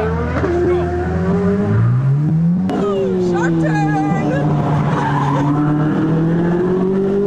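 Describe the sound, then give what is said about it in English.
A Corvette's engine roars at about 132 miles per hour: a loud, sustained, harmonic drone that climbs in pitch, breaks with a sharp transient, then holds steady, with tire squeal and voices over it. “132 miles per hour in the Corvette.”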